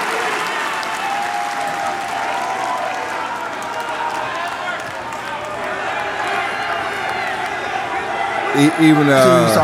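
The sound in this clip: Audience applause and crowd noise welcoming New Japan wrestlers at an AEW wrestling event: dense, steady clapping and cheering that holds at an even level throughout and swells slightly toward the end.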